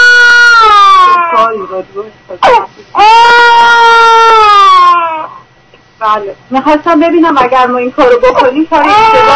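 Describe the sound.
A baby crying during a phone call: loud, high wailing bursts with strained, drawn-out cries, heard together with people talking.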